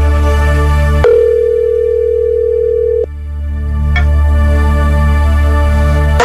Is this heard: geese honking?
no